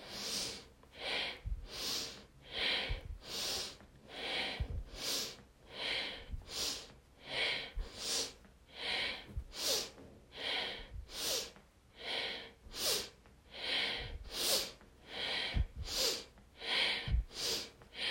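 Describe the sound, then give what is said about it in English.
Many rapid, forceful breaths go in and out through the nose in a steady rhythm of about one per second during a breathing exercise with arm movements. The sniffs and snorts are crisp and even, with no talking. “Inhale up, exhale down, up, down. Rapid motions, deep breath through the nose. Inhale up, exhale down.”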